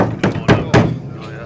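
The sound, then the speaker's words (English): Three firm knocks on a mahogany house door, evenly spaced and dull, each a short thud with a brief hollow ring. “a badly dressed delegation went up to Isaac Murphy's house, knocked on his mahogany door”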